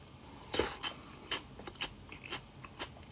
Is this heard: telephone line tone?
no